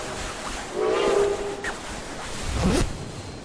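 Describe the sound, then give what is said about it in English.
A train approaches in the video game Fallout 76. Two horn blasts sound over a steady rumble, a longer one first and a shorter, louder one later. “What is that? That's a train. An honest-to-God train.”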